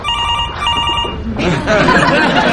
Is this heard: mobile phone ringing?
yes